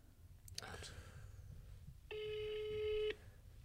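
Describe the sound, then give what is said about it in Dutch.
A telephone ringback tone sounds while a call is placed and waits to be answered: one steady, even-pitched tone lasting about a second, rising above a low background rumble after a few faint clicks. “Dus ik denk dat het weer tijd is om te bellen. Sommige mensen doen altijd heel lang over om op te nemen.”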